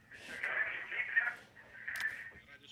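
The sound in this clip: A radio playing behind a phone call comes through as a thin, narrow band of voice-like sound that swells and fades twice, muffled and tinny over the line.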